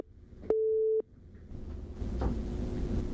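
A telephone busy tone sounds after a caller's line drops: a single steady mid-pitched tone lasting about half a second, followed by rising line hiss and faint noise.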